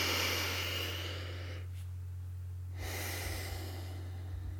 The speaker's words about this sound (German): Atme tief ein.